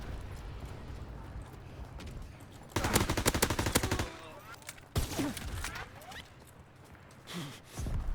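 Gunfire in an online shooter game with smoke grenades and tanks, with two loud rapid bursts of shots separated by a short gap over a lower, steady game background.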